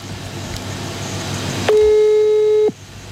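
A telephone line tone during an outgoing call: one steady, mid-pitched electronic beep lasting about a second, rising clearly above a low background hum before cutting off.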